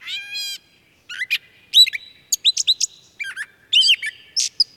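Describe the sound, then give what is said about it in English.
Birds calling around a pond frequented by tufted titmice, crows, catbirds, chipping sparrows and mallards: a buzzy opening note, then many varied high chirps and squeaky phrases in quick, irregular bursts with no other sound. “Birds often heard around Brothers Pond include tufted titmice, crows, catbirds,”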